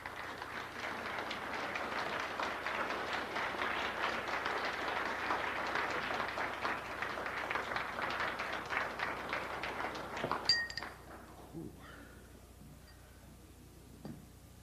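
An audience applauds to welcome a lecturer at the Granada Forum. Dense, steady clapping holds for about ten seconds, then thins out into a few scattered claps and light clinks before quiet.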